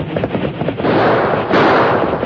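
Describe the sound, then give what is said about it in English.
A rapid volley of gunshots fired at a rider galloping on horseback beside railroad tracks: sharp, loud bursts that merge into a dense, continuous noisy roar. “The Lone Ranger ignored the shots they fired in his direction”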